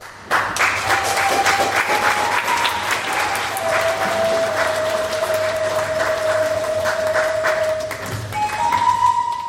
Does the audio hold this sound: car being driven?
no